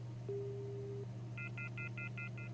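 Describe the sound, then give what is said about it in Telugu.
Telephone line tones after a call drops: a short steady tone, then a rapid run of brief, evenly spaced high beeps over a constant low hum, faint and without voices. “Phone line cut అయినట్టుంది.”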